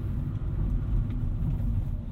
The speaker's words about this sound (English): as we drive off to the do a bit of Christmas shopping.